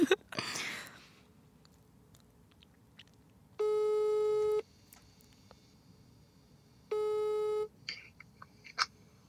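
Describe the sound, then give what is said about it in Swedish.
Ringback tones of a phone call being placed: two separate beeps, each about a second long and steady in pitch, with a quiet gap between them. A few faint clicks and rustles come before and after. “Okej, nu ringer jag till mitt ex Fredrik.”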